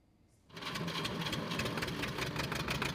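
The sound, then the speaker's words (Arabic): A diesel generator powering a grain-sieving workshop in Syria kicks in abruptly after a brief quiet moment and runs with a dense, steady mechanical rattle and hum. “مع كل تشغيل لهذا المولد تبدأ على العم أبو إبراهيم كلفة جديدة”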